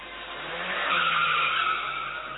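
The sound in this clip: Car tyres skid and squeal during a driving display in one sustained, harsh screech that swells in the middle and then eases off slightly, with no voices.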